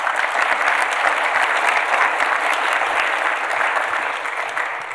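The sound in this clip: Audience applause after a talk about climate risk: many hands clap in a loud, dense, continuous roar that holds steady, then eases off slightly near the end.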